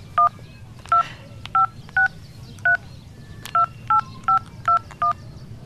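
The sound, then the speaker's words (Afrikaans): Touch-tone beeps as a telephone number is dialed, ten short, clear, mid-pitched tones in an uneven rhythm, each one steady in pitch and separated by brief gaps of faint background hiss. “Laat weet jy vir Juliana en ek bel vir Trevor.”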